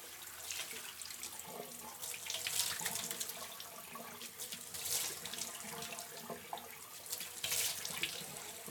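Water running from a tap into a sink while someone washes their face, a quiet, steady splashing stream with irregular spatters throughout.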